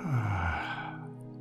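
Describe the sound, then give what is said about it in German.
A long breath out after inhaling through the nose into the belly during a guided breathing exercise: a soft, low, voiced sigh that trails off and fades away. “Einatmen durch die Nase in den Bauch. Und ausatmen.”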